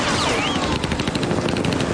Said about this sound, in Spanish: El sicario responde con una ráfaga que pasa rozando el jeep.